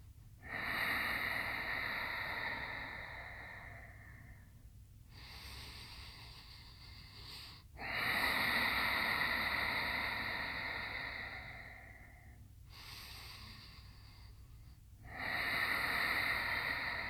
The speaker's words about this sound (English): An energetic breath that on its own will bring heat into your body. Yes, breathe right down into the bottoms of your lungs.